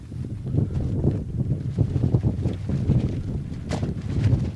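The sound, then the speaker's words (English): Wind blowing hard outdoors and buffeting the microphone, a steady low rumble with uneven gusts swelling and easing throughout. “Man, the wind is getting it today.”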